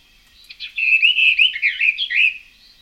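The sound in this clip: Bird song played from a record, the French regional song of one bird species: bright, high chirping and warbling phrases in a fairly steady run of about two seconds, with no voices.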